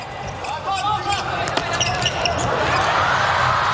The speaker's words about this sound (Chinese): 齐天佑这次发球 好，发球